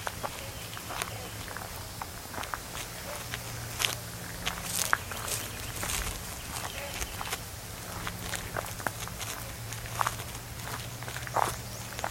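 Footsteps of someone walking through Louisiana wetlands, a steady series of many soft, crunchy steps at an even walking pace, with a low hum underneath.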